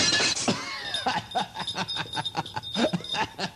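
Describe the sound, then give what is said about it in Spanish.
A glass bottle is thrown and shatters in a brief, bright crash at the start, followed by rhythmic chuckling laughter. “Y ahora tira la botella.”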